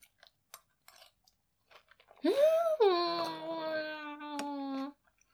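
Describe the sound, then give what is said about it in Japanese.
Faint clicks of chewing soft, fluffy cooked egg lead into a long hummed moan of pleasure whose pitch swoops up and then settles into a steady tone. “今ね、ずっと取っておいた一番のふわとろの部分を食べたの。”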